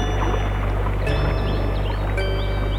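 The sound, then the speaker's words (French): Water bubbling and stirring as something emerges from a lake, over a heavy low steady rumble, with a couple of brief splashy bursts. “Tout à coup, il entend un bruit, comme quelque chose qui sort de l'eau.”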